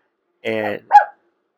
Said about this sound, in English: That's our dog for the background. No secrets, so yeah. You know, you're going to hear it all.